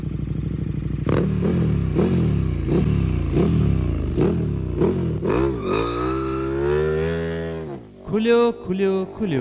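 A scooter engine revs in a rapid, even series of short surges, each pitch sweep rising and dropping, then builds into one long rising rev before breaking into a few choppy bursts.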